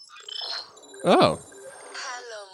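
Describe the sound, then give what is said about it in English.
A mobile phone ringtone plays bright, melodic electronic tones, with a sweeping, swooping phrase in the middle that stands out loudest before the melody carries on. “Oh, that's my phone. Sorry. Yeah. I should, I'm feeling a bit fucked off. God, is that my ringtone? Yeah, I should change that.”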